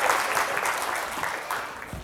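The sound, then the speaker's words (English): A round of applause, with a crowd clapping in a dense, steady patter that stays fairly quiet and even throughout without breaks. “I think a round of applause. Well done.”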